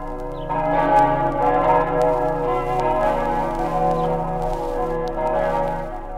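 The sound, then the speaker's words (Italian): Church bells of the Basilica of Aquileia ring from a 900-year-old bell tower built with stones from a Roman amphitheatre. Rich, overlapping tones sustain and blend in a steady, loud wash, with fresh strikes layered through the resonance. “non pregano nella luce dei martiri cristiani le campane della Basilica di Aquileia?”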